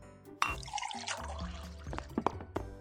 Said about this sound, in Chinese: 倒水这种事交给我来做就好了